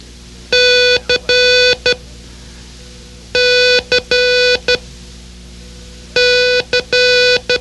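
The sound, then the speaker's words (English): Morse code letter C keyed as a loud, steady beeping tone in a long-short-long-short pattern, sent three times with pauses between. “Our sound alike for C is catch it, catch it. It sounds like this.”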